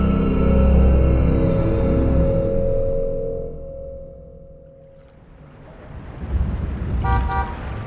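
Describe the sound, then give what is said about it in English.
Cold wind rushes over the choppy surface of the New York harbor: a loud, low rumble with a steady droning tone early on eases around the middle, then swells again into gusty noise. “a gelid wind raced across the choppy surface of the New York harbor”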